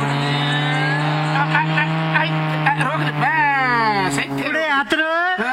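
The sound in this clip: A car pulls up and stops outside a roadside eatery in a radio drama. The engine drones steadily, then its pitch drops as the vehicle slows to a halt.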